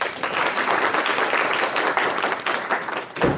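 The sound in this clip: Audience applause welcomes a pharmacist speaker at a talk, a dense, steady wash of many clapping hands that holds evenly before ending abruptly.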